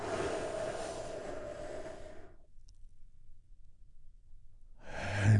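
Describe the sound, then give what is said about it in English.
A deep, slow breath taken during a guided relaxation exercise, heard as a long airy rush lasting about two seconds. A quiet pause follows, then another breath begins, all faint and without talk. “taking a big, deep healing breath with me right now”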